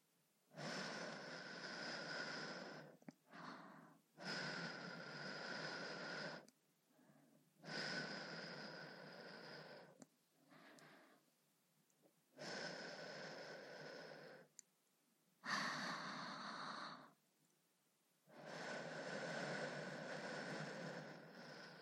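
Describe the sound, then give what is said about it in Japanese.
Soft ASMR breath blowing: a slow series of long, gentle, airy exhalations, each lasting a couple of seconds and separated by quiet pauses, very faint and close. “最後にこちらも息を吹きかけておきましょう。”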